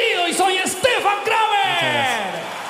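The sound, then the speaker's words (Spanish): Audience ovation for a comedian at the 2018 Viña del Mar festival in Chile, loud sustained cheering with whoops and yells whose pitch rises and falls. “Esta ovación es para un super comediante, para un super papá y para un hombre que le dice a este escenario, soy super, super diva.”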